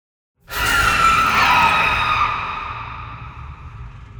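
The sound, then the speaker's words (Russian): An agonized monster howl: a sudden, loud, high-pitched shriek with a ringing tonal edge that holds for about two seconds, then slowly fades away. “Еще более мучительный вой огласил округу. Впрочем, крик полный страданий тут же захлебнулся.”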